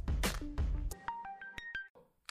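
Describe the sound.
A telephone call being placed: after a few loud knocks comes a quick run of short electronic beeps that step through different pitches, then a brief pause and one last tone.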